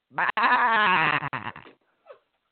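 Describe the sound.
A human voice imitates a sheep bleating with one long, wavering baa that has a quivering vibrato and is briefly broken. A short, faint trailing sound follows.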